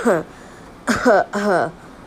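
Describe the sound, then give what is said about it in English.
Three short rough coughs, mixed with throat clearing, come from one person in quick succession, each a brief voiced burst. “bad, awkward cough”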